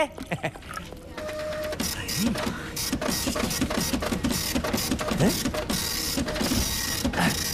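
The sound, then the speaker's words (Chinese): A printer runs off a document, giving a steady mechanical whir layered with rapid, rhythmic clicking and chattering that continues throughout. “你打印的这玩意儿出来了啊？”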